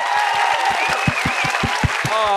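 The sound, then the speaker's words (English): Audience applause at a live event: dense, continuous clapping from a crowd at a steady level, with cheering and voices mixed in throughout. “Let's clap for everyone. Everyone clap for everyone.”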